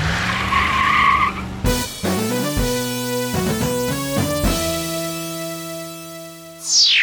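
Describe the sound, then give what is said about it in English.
Tires of a street-legal Porsche Cayman GT4 sports car skidding: a loud, sustained squeal with stepped shifts in pitch, ending in a brief rising sweep. “That's not your car. That's a street-legal Porsche Cayman GT4!”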